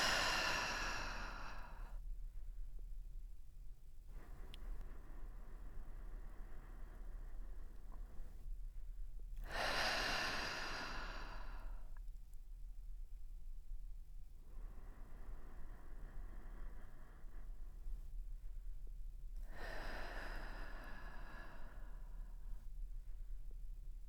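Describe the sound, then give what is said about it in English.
Slow, deep breathing in a guided breathing exercise: quiet inhales through the nose alternate with three loud, breathy exhales through the mouth, evenly spaced in a calm, steady rhythm with no talking. “Take a few more breaths in this way. Inhale through the nose and exhale through the mouth.”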